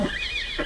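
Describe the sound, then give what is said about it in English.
Horses neigh in a wavering, high-pitched whinny that stretches across most of the short clip over a low rumble, with brief lower grunts at the start and end. “Oh, those stupid horses! I suppose that noise was ordained by heaven to assist my examination of the patient.”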